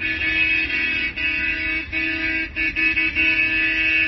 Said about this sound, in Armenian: Նույն ընթացքում մայրաքաղաքի տարբեր հատվածներից ավտոերթերով իրազեկման ակցիաներ են իրականացվել։